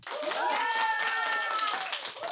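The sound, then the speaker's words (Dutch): Sustained applause from a school audience welcoming eight student debaters, dense steady clapping from start to finish with voices mixed in. “Geef ze alvast een groot applaus voor de 8 debaters van vandaag van de Zeven Zeeën.”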